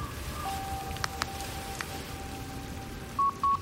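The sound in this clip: A phone call's signal drops out: a faint steady line tone hums under soft static hiss with a few faint clicks, then two short electronic beeps near the end.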